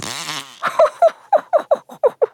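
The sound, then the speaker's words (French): Comical fart noises: a longer low buzzy rasp followed by a rapid series of many short, sputtering puffs, loud and heard alone. “Comment ? Qu'est-ce que j'entends ? Prout, prout.”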